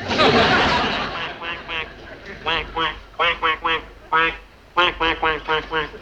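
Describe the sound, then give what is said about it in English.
A man imitates a duck, giving many nasal, throaty quacks in quick clustered bursts with short gaps between them, following a brief hiss at the start. “Poor devil. The sun has finally got him. He thinks he's a duck.”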